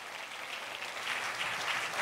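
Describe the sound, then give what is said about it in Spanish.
Applause from a church audience praising the Lord: a continuous wash of many hands clapping, fairly soft, swelling slightly in the second half. “Si usted le va a dar ese aplauso al Señor, déselo bien.”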